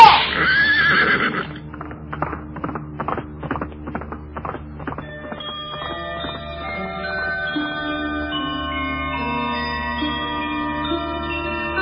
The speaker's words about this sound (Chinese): 辛弃疾把马鞭用力一挥，骑着马走进阳光里